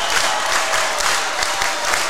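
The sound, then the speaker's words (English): Basketball crowds from Montgomery County and Priory rise to their feet during a tight game, producing a loud, steady wash of applause and cheering that holds at an even level. “Montgomery County crowd comes to their feet. Priory crowd says, yes, we'll do that too.”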